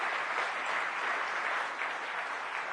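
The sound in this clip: Steady applause from an audience at a political speech, a dense, continuous clatter of clapping that holds at an even loudness throughout with no pauses.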